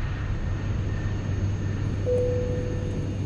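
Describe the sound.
An airliner cabin in flight gives off a steady, fairly quiet low drone of engine and air noise. Partway through, a thin sustained tone joins the even hum.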